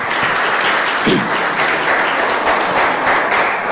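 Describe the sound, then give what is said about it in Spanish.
Loud, steady applause from a church audience praising God, a dense wash of clapping that holds evenly through the whole stretch with no voices standing out. “¿Cuántos dicen gloria a Dios? Denle un fuerte aplauso al Señor.”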